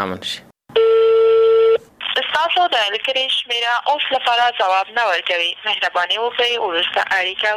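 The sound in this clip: A single steady electronic telephone tone lasts about a second while a call goes to the Maidan Wardak province governor's number. Continuous talking follows.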